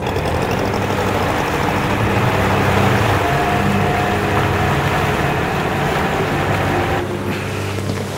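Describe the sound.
A ship's engine drones steadily as the vessel moves ahead at half speed, a low, even rumble that holds unchanged throughout with no voices over it.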